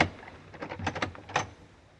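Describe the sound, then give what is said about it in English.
A door is opened, giving a few faint clattering clicks and a short rattle of the latch in the middle, with quiet gaps before and after. “All right. Well, here we are. We'll open the door.”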